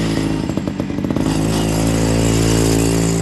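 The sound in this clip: A small go-kart engine at a karting club for young drivers revs as the kart pulls away. A loud, rattly, buzzing drone pulses at first, then fills out into a dense, steady roar.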